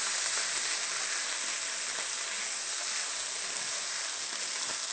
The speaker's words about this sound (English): And then stirring together the vegan sausage with the onions and peppers, and imparts the nice flavor of the onions and peppers and the soy chorizo all together.